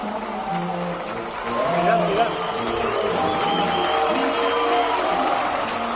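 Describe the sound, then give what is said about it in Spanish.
Crowd of Real Madrid fans reacting as Zidane comes out for a morning training session. The mass of mixed voices and calls is a dense, continuous murmur that swells partway through. “Y el público reaccionaba esta mañana así cuando Zidane saltaba a entrenar.”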